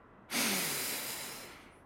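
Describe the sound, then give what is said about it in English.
A single slow breath is drawn in through the nose during a guided calming exercise. It starts abruptly as a loud, airy rush and then tapers gradually over about a second and a half. “let's breathe slowly in through our noses”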